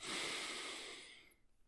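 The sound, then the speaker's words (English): A single deep breath in during a guided sleep relaxation, a long, soft, airy inhalation that starts strong and slowly tapers off toward the end, with no talk over it. “Deep breath in.”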